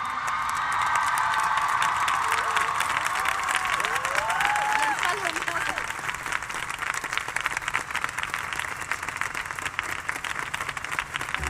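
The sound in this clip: An audience applauds a singer at a live event, dense continuous clapping with a few brief whistles and cheers early on, the clapping easing slightly but carrying on to the end.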